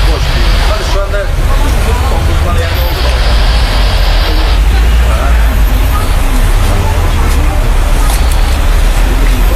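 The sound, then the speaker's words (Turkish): Road traffic flowing along a street reopened to vehicles after crime-scene investigators finished their work: a steady, loud rumble of passing cars and heavier vehicles, with a faint murmur of voices mixed in. “Olay yeri inceleme ekiplerinin çalışmalarını tamamlamasının ardından sokak yeniden trafiğe açıldı.”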